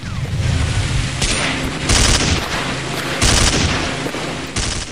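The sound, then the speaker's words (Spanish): Gunfire in an armed conflict: dense, crackling volleys of shots with several louder bursts standing out over a continuous rattle. “lugares donde este sonido es el hilo musical permanente, lugares que son el escenario de los al menos 28 conflictos abiertos en todo el planeta, donde una bala o una bomba son parte de la rutina, lugares como Haití, Guatemala, Honduras, México.”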